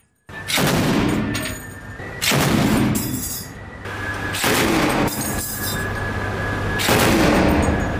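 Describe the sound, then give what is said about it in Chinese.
Heavy machine gun fire from a warship's deck, warning shots aimed at a suspicious small boat, in several loud, sustained bursts separated by short gaps. “指挥员迅速下达指令，舱面火力组使用重机枪对可疑小艇进行警告射击。”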